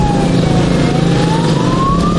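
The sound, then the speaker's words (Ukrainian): Motorcycle engines drone during a village funeral procession, a loud steady rumble under a single motorcycle siren tone that slowly climbs in pitch. “35-річного Максима та 36-річного Романа Мосійчуків село Калинівка проводжало в останній путь під гул двигунів і сирени мотоциклів.”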